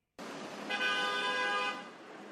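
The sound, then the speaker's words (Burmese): A car horn sounds in a traffic jam on a New York City street during the UN General Assembly, a steady blare of about a second over a continuous hiss of traffic noise. “ဒါကတော့နယူးယောက်မြို့လေကောင်မှာကားတွေပိတ်နေတာဖြစ်ပြီးတော့”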